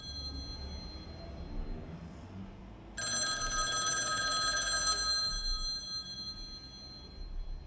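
A telephone bell rings once in a police station office, a bright, shrill ring lasting about two seconds over a low, steady background hum.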